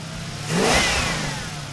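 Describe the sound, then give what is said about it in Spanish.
Mustang car engine revving in one loud surge that climbs in pitch, swells to a roar, then eases back toward a steady engine drone, heard alone. “Y a juzgar por la potencia y la velocidad que tuvo en sus mejores momentos, seguro que era el motor de un Mustang.”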